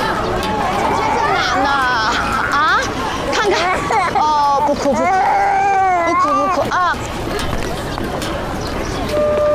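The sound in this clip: A baby cries in repeated rising and falling wails, loud, with people talking over it.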